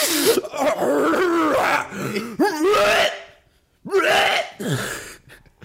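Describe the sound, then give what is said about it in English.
Someone clears their throat in several rough, voiced bursts. The bursts are loud with short gaps between them, and the last two follow a brief silence. “Sorry, I'm just clearing my throat.”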